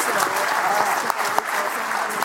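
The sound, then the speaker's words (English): A loud audience round of applause: dense, continuous clapping from a crowd that holds steady for the whole stretch, with a few sharper claps standing out. “All right, everyone, round of applause for everybody.”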